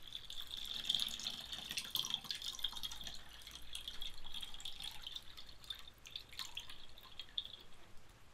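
Water dripping as a wet towel is lightly wrung out: a faint, steady watery patter with scattered drops all the way through, and no voices.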